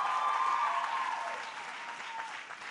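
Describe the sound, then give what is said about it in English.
Applause from a commencement audience at a women's college: dense, steady clapping from a large crowd that holds level and then eases slightly toward the end. “I recognize that's a cheap applause line when you're giving a commencement at Barnard.”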